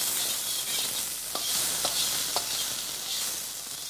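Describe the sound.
Sizzling stir-fry in a wok at the stove of an open kitchen, a steady bright hiss of frying with a few sharp metallic scrapes of the utensil against the pan standing out at regular intervals.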